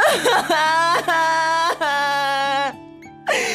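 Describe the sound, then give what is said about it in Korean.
A woman crying in long, drawn-out, high wavering wails broken by brief catches of breath, over a steady low background tone. “그만 울어요 이제.”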